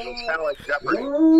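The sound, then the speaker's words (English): Dog howling in wavering, tonal cries that rise and fall, ending on a long, steady sustained note. “so his dog is howling.”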